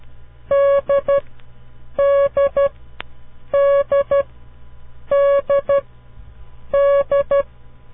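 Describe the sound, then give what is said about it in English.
Morse code letter D, dah-dit-dit, sent as a steady beeping tone. It repeats five times, each one a long beep followed by two short ones, with even gaps between groups and a single faint click partway through. “The next letter we will learn is the letter D, da did it. Listen very carefully to this sound. Each time you hear it, try to visualize a picture of the letter D in your mind. Here it is, the letter D.”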